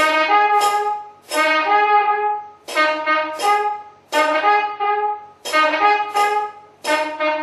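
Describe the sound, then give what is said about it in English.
Kombu horns from an ancient South Indian war and worship music tradition sound loud, bright, buzzing blasts, repeated many times in overlapping bursts that each start strong and then tail off, with no voices. “This is a very ancient cultural war and worship tradition of South India. It's called the Kombu Pattu, and it sounds like this.”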